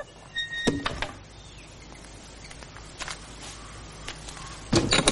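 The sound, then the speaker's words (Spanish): A window is closed in a room: a sharp clunk near the start, a few soft knocks and scrapes, then another burst of handling noise at the end, all over quiet background. “El joven cierra la ventana y camina pensativo por la habitación.”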